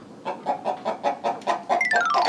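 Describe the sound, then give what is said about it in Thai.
A fighting cock clucks in a steady run of rhythmic, evenly spaced bursts, then finishes with a higher, falling call. “อ๋อมีเลี้ยงไก่ชน”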